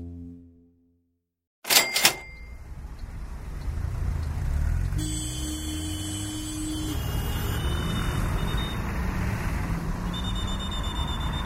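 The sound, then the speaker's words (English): Chaotic street traffic in Bogota, Colombia, where horse carts, cars, bikes, pedestrians and buses share the road: a sharp clattering burst near the start, then a dense, steady road roar with a held tone partway through. “This is the sound of traffic in Bogota, the capital of Colombia. It's pretty chaotic.”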